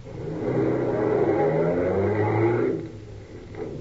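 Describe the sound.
A car drives along and pulls up at the corner of Jackson Street and Divisadero: a steady mid-pitched engine hum that falls away after a few seconds, leaving a quieter idle.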